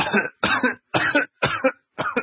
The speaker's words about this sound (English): I paused for no reason whatsoever. Sorry, I was a little cough there.